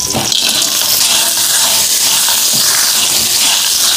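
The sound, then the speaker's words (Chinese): Scallion and ginger slices sizzle in hot oil as a stir-fry begins, a loud, steady, bright hiss that holds evenly for the whole stretch with no voices. “油热了，倒入葱姜片爆香，然后倒入蛤蜊，”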